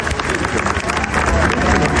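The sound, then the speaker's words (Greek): Applause and crowd noise at a live bouzouki music event, a dense, loud mix of clapping and cheering voices with uneven surges that keeps going for about two seconds. “Θέλω να δώσω ένα δυνατό χειροκρότημα για τον Θανάση τον Βασιλά”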